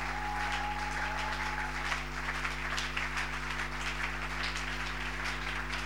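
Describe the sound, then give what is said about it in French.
A church audience applauds God in worship, a continuous, even wash of clapping sustained for several seconds over a steady low hum and drone. “Est-ce qu'on peut acclamer Dieu comme il se doit?”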